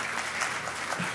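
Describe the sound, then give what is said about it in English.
A few listeners give a brief, quiet patter of clapping during a religious talk, a soft, even burst lasting just over a second. “Yeah, you can clap for that, all three of you.”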